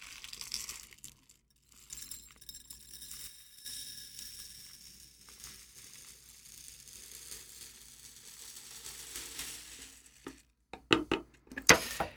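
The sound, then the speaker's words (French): Granules poured from a pot, heard as a faint, continuous dry rattling hiss with small clinks, ending in a few sharper, louder clicks and rattles near the end. “Je prends un autre pot, que je verse également,”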